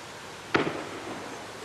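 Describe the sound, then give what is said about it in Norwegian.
A single sharp gunshot crack during the shooting attack on Utøya, a sudden loud report with a short ragged tail that fades into a faint, steady background hiss. “Nå skyter de her ut da nå. Her, liksom? Nå skyter de på Utøya.”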